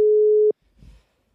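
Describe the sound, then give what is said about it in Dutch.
A steady single telephone line tone sounds for about half a second as a call is placed, then cuts off, leaving only a faint low rustle. “gaan we toch eventjes bellen”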